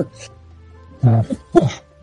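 Someone clears their throat in two short, rough bursts, the second coming soon after the first, against a quiet background.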